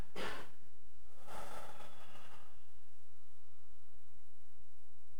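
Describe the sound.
A big deep human breath: a short airy burst, then a longer, softer rush of breath that fades out, both set against a steady background hiss.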